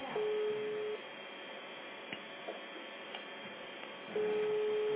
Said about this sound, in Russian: Вот давайте я вам еще раз звоню. Вы трубку снимите.